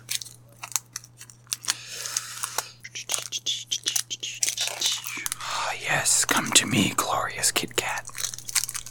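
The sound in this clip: Crunching on Kit Kat chocolate bars: many crisp, crackly bites and chewing sounds in an uneven rhythm, with some talk mixed in.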